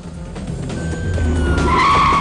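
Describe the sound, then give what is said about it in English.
Tyres skid and squeal as a car pulls up alongside a running man during a police chase in a film scene. A high squeal rises and swells over a growing engine roar, getting louder toward the end. “Dom sprints off down an alleyway, and the cops pursue in their car. Brian pulls up alongside Dom.”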